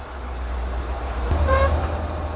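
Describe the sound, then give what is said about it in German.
A train travels at moderate speed through landscape near the Arctic Circle. Its steady low rumble runs throughout, and a short tonal hum rises briefly mid-clip. “Die Bahn fährt in gemäßigtem Tempo weiter durch die spektakuläre Landschaft rund um den Polarkreis.”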